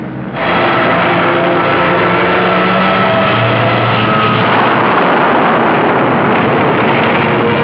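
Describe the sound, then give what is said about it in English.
A napalm air strike: a loud, continuous roar of aircraft engines with a deep rumbling blast underneath, starting abruptly and holding as one dense wall of sound, with no voices. “Scorching the place with napalm, while all the time the artillery softens up the survivors, if any.”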